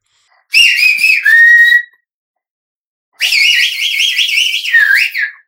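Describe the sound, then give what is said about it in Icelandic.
Very loud human whistling outdoors near a house: two long high whistles. The first is a few short notes sliding into a held, falling tone. After a pause, the second is a long warbling trill that ends by dropping in pitch. “Þegar þeir voru komni skammt frá húsinu, blístraði Viktor svo hátt.”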